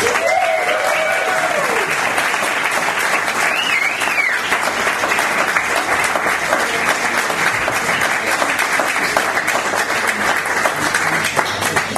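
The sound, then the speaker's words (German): Warm audience applause welcoming a guest onto a stage, a long, dense stretch of clapping that stays loud and even for about twelve seconds without letting up. “Bitte einen herzlich großen Applaus für Hans Söller.”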